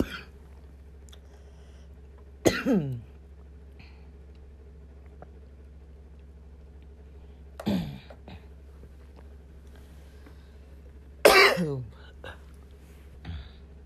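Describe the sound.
A few short coughs and throat clearings break out several seconds apart, each a brief harsh burst, with only a low steady hum in the quiet gaps between them.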